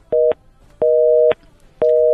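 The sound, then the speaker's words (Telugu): A telephone busy tone sounds after a phone line is cut, giving three loud, flat beeps with silent gaps between them; the first beep is shorter than the others. “Okay, line cut అయింది, no problem.”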